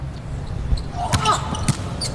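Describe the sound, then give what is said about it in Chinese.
A volleyball serve being hit during a match, heard as a few short, dull ball impacts over a steady murmur of background voices and crowd noise. “图梅尔的发球，”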